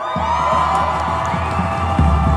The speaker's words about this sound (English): Those are pro-Hamas protesters literally cheering Iran firing on Israel.